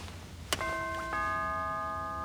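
A doorbell rings at a palace door: a sharp click, then a two-note ding-dong chime. The second note rings on steadily to the end, with no talk over it.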